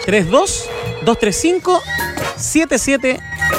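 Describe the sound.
A telephone rings with an incoming call, a steady electronic ringing tone partly masked by lively talk that runs over it throughout.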